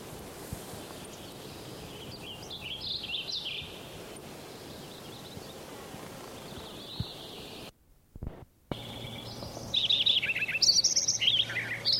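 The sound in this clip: Wilson's warbler birdsong: several short bursts of bright, high chirping notes come in quick phrases over a soft, rustling background, growing louder and busier toward the end.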